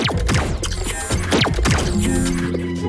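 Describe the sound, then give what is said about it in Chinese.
Cartoon mechanical sound effects as a vehicle switches into climbing mode: a series of quick sweeping whooshes and clanks, then sustained whirring tones that settle in toward the end. “好的，启动登山模式。”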